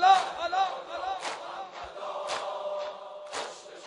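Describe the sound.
An audience at a concert shouts and cheers in a continuous, dense roar, with several louder bursts of yelling rising above the crowd.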